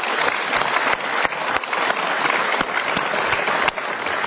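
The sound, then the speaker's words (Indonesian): Audience applause, a dense, steady burst of many hands clapping that holds at an even loudness for about four seconds, with faint crowd sounds underneath. “Sekali lagi kita berikan tepuk tangan.”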